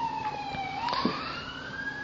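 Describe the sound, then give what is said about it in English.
An emergency siren wails as a single piercing tone. It dips in pitch and then sweeps back upward, holding at moderate loudness over a faint rumbling background. “It wasn't the water cooler, it was the sirens instead this morning.”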